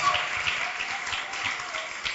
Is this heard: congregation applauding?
yes

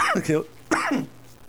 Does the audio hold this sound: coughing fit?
yes

